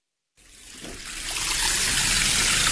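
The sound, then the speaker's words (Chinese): A clear stream flows slowly past a village entrance in rural Miyun, Beijing. After a moment of silence, a soft, steady wash of running water fades in and continues on its own. “在密云区西翁庄镇黑山寺村口前，清澈的小溪正缓缓流淌着。”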